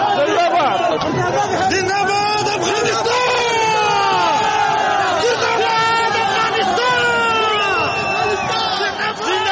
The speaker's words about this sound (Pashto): کرکټ د تاریخي بری په خوشحالۍ کې ژوندی دی افغانستان شعارونه ورکوي.